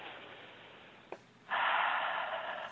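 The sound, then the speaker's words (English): A person takes a deep breath in, heard as a sustained airy rush that starts abruptly and holds steady at a soft level, with a tiny click just before and no talk. “So you begin by taking a deep breath”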